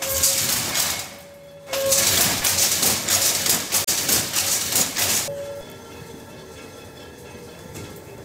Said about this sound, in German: Jetzt wird die Lade vorkommen und drückt den Schussfaden hier an das fertige Gewebe.